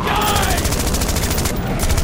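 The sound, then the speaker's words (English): Rapid rifle gunfire rattles in a dense, continuous fusillade of shots, loud and unbroken for the whole stretch, with a steady roaring wash underneath. “Don't use up all the ammo, you knucklehead! Shoot him a couple of times!”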